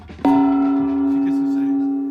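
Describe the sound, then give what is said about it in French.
A gong is struck once near the start and rings on as a sustained, bright metallic tone with steady overtones, fading only slightly over the following two seconds. No talk is heard. “C'est un gong”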